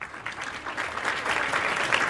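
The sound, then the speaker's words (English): Audience applause for a cellist and poet on her 70th birthday, a dense patter of clapping hands that swells gradually and stays fairly loud to the end. “And I think she deserves a round of applause.”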